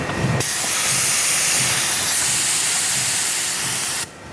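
An industrial press in the production hall of the machine-building firm Mato in Mülheim am Main lets out a loud, steady hiss of air as its lever is pushed down to join hinge halves. The hiss stops abruptly after about four seconds.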